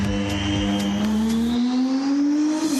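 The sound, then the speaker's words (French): An Alpine A424 hypercar engine at a development session, a loud, sustained whine that climbs steadily in pitch as the car accelerates, dipping slightly at the very end. “puisqu'Alpine nous fait l'honneur de nous inviter à une session de développement de son hypercar, la 424.”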